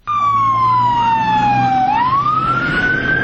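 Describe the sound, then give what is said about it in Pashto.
Emergency siren at the scene of a suicide bombing near Kabul airport, where fire engines and ambulances respond: one loud continuous wail that slowly falls in pitch, then sweeps back up, over a low steady rumble. “په کابل کې د نن ورځې انتحاري حملې او د پیښې په سیمه کې د اطفایو او امبولانسونو غږونو یو ځل بیا د ښار د اوسیدونکو ژوند نارامه”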